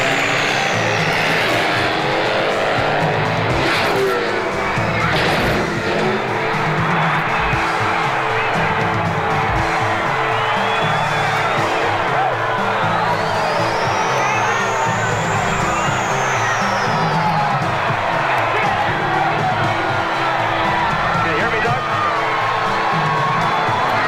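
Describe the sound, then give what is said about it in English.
A crowd cheers and shouts at a motorcycle stunt jump from an approach ramp to a landing ramp, with engine noise throughout and a loud rising-then-falling whine near the middle. “his total concentration now is getting that bike off the approach ramp and onto the landing ramp. And he's not hesitating. He'll go.”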